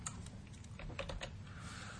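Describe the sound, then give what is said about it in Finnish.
Typing on a computer keyboard into a search field: a quick, uneven run of light plastic key clicks, faint over a low background hum. “kun mä kirjoitan siihen ku, niin se etsii mulle vaan kaikki, missä on ku löytyy tuolta”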